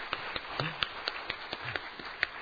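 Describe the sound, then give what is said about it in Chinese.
A church audience claps to welcome three newcomers: faint, separate hand claps come at an uneven pace, sparse rather than a dense burst of applause. “我们先一起鼓掌欢迎这三位，好不好？”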